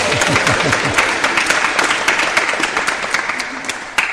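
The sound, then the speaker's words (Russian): An audience at a spiritual gathering on a Polish tour applauds in loud, continuous clapping with sharp individual claps standing out, and a voice briefly audible at the start. “Давайте похлопаем ее.”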